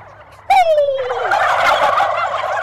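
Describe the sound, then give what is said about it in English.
A turkey call imitates the loud gobble of an aggressive male turkey, starting with a sharp falling tone that breaks into a sustained, rattling gobble. It is loud and harsh throughout, with no talking. “Now what I'm going to do now is I'm going to be an aggressive male and gobble really loudly”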